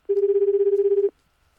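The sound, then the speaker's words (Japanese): Ringback tone of an outgoing telephone call: one steady, fast-pulsing buzz tone lasting about a second, then silence. “はい、ちょっとこの方に電話してみましょう”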